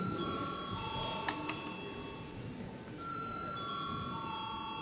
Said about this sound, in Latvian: Lūdzu zvanu.